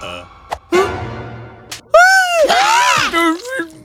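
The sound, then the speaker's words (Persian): Screaming from a frightened person reacting to an intruder in the house: shorter breathy vocal cries, then a loud, high, wavering shriek that holds for over a second before breaking into lower, strained sounds. “نمیدونم چرا دارم جیغ میزنم”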